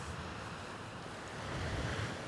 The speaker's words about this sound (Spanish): Impresionante, sí, señor. Pero todavía más este mar poderoso que es el Cantábrico.